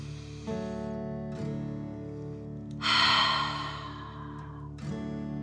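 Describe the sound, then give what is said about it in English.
Slow breathing in and out during a guided relaxation exercise, one fuller breath swelling midway, soft and airy over a steady, droning music bed. “Let your head relax and breathe in and out.”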